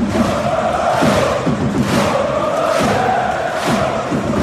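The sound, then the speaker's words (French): Paris Saint-Germain football supporters chant in the stands during a match, a loud massed chant pulsing with a steady beat roughly once a second. “ce que vous entendez, c'est l'ambiance hein, dans les tribunes pendant le match posté sur Twitter par un supporter. On a l'impression d'être au Parc des Princes”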